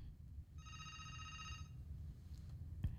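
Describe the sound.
A phone call to a radio talk line rings out unanswered, a single faint, steady electronic tone lasting about a second over low background hiss.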